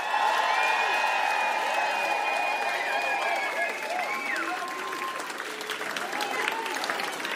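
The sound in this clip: A concert crowd applauds and cheers for a DJ, a dense, steady wash of clapping with high whistles and whoops running through it and no clear pauses.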